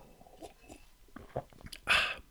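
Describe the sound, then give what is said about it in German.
Someone takes a quick sip of a drink during a spoken lesson. A few faint, soft mouth and liquid sounds lead into a short, louder slurp near the end. “Ich trinke nochmal kurz einen Schluck.”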